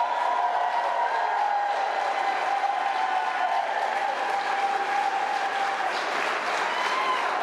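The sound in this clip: A crowd at a state capitol rally for Medicaid expansion cheers and applauds in a dense, continuous roar of clapping, with whoops and shouts rising through it at a steady level throughout.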